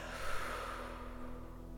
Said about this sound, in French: On va prendre une première grande respiration. Ensemble, on inspire. Et on expire.